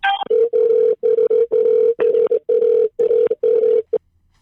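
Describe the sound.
A telephone call being dialled to test whether a number still works: a brief higher tone opens, then a steady, mid-pitched beep repeats in a quick string of bursts with short gaps before stopping.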